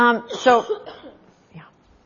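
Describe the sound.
A few harsh coughs and throat-clearing sounds, short and fairly faint, with brief voiced bursts between them.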